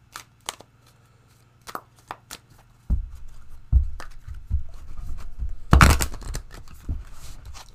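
Tarot cards being shuffled: scattered soft taps and light rustles, then a short, louder riffling burst near the end, with no talking.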